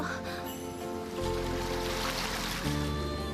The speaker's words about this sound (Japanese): あのさ、この水どこへ流れていってるの？